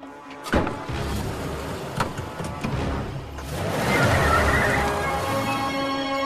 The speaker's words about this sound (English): The wheels of Sam's SUV spin furiously, throwing up gravel and dust as he tears off.